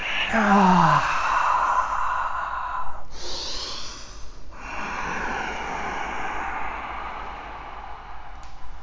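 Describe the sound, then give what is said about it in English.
Deep breathing during a yoga exercise: slow, audible breaths with a sigh-like tone at the start and one louder, airy rush of breath in the middle. Faint, steady air sound fills the rest. “Full breath in, full breath out. Inhale, let it go.”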